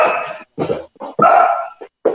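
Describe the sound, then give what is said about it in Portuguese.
A small dog barks in a quick series of sharp, yappy bursts, loud and with short gaps between them, with no talk over it. “Não tem problema o cãozinho, professor.”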